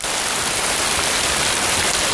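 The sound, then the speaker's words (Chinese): Steady rain falls outside, a dense, even hiss that holds at the same level from start to end with no distinct drops or pauses. “这外头下雨天的”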